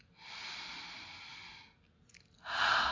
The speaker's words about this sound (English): Let's just breathe together. In and out.